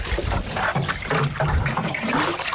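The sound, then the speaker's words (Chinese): Water pours from a bucket onto newly planted pine seedlings on a hillside. It makes a steady, rushing splash that runs unbroken from start to finish with no voices. “开始干活了，从南往北浇，每棵苗一桶水，别落苗。”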